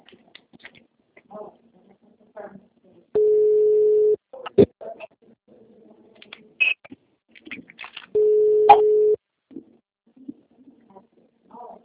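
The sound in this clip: Telephone line tone heard while calling someone: two long, steady, mid-pitched tone bursts of about a second each, separated by a pause, with faint scattered clicks and murmurs between them.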